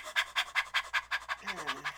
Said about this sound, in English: You should learn to breathe in short, petite, feminine breaths like this.